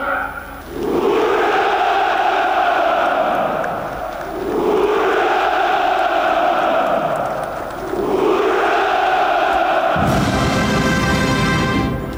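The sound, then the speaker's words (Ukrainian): A crowd at a Victory Day celebration shouts a drawn-out "Ura" three times, each long, swelling, voiced cry rising and fading before the next. “Апогеєм святкування був заклик «Ура» і спів гімну Росії під музику колишнього гімну Радянського Союзу.”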